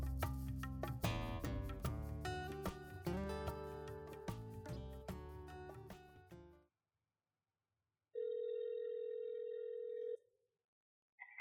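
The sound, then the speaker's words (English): A telephone dial tone sounds as a call is dialed, a steady, even tone lasting about two seconds after a louder musical passage ends and a short silence, with a second brief tone starting just after. “without further ado, I'm going to dial up and get Joan O'Callaghan on the line.”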